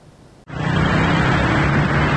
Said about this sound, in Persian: ترافیک روز یک شنبه خیابان‌های تهران، این هم از شلوغی مترو.